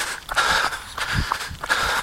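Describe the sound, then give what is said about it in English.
Footsteps of a person running along a street through a shady cul-de-sac with lingering snow and ice, a steady rhythm of dull thuds under a constant airy hiss. “I actually are running through a shady spot in a cul-de-sac near my house.”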